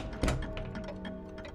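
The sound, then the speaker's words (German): Many clocks ticking together in a clock shop, a dense, irregular patter of small overlapping ticks and taps following one heavier knock near the start, fairly faint throughout. “Wow, was für ein Konzert. Jede Uhr gab ihr ganz eigenes Ticken von sich.”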